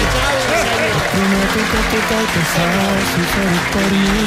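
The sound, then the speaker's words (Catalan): Audience applause with a mix of cheering voices breaks out after a romantic declaration on stage, a dense, steady wash of clapping that stays loud from start to finish. “Un aplaudiment, sisplau!”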